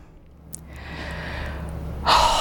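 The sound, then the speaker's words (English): A deep breath: a soft, airy inhale swells steadily for over a second, then a louder, sharper rush of breath follows at the end. “let's take a deep breath”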